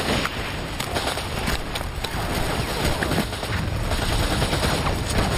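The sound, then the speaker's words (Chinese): Dense gunfire from German positions, a continuous crackling roar of rapid shots with no clear gaps between them, steady and loud throughout. “子弹飞得密不透风，德军的火力非常猛”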